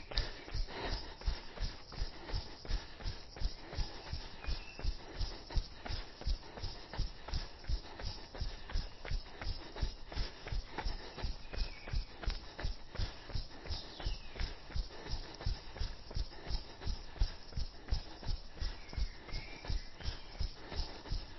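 Rhythmic footfalls of someone jogging on a path near a golf course: many even steps at roughly two per second, fairly faint and keeping an unbroken steady pace with no talking.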